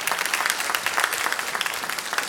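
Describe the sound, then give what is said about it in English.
A church audience claps in praise during a homecoming morning service, with steady, dense applause and distinct individual claps throughout. “So give him a hand clap of praise this morning, amen.”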